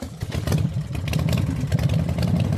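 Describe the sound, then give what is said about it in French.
Motorcycle engines rumble among bikers in Grenoble with a steady, low droning and a clattering mechanical texture. Slight surges in the sound suggest light revving. “Tous les véhicules motorisés à deux ou trois roues immatriculés avant 2017 sont concernés, une mesure qui ne passe toujours pas auprès des motards comme ici à Grenoble.”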